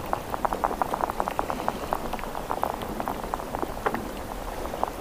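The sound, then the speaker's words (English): Underwater hydrophone recording over a muddy sea bottom with no oyster reef in Pamlico Sound: many soft clicks and pops crackle steadily over a constant watery hiss from start to finish. “Coretti is using these hydrophones to document which animals besides oysters use these reefs. And what she's found so far has been enlightening. Here's what it sounds like in Pamlico Sound, where it's just muddy bottom and no oyster reef.”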